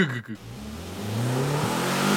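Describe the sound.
A gas-powered engine starting with a brief sputter, then revving loudly. Its pitch climbs in two pushes and holds steady to the end.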